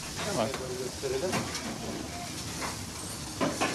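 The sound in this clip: Pan-fried liver sizzles in a pan in Edirne, a faint steady hiss and spatter with voices talking in the mix.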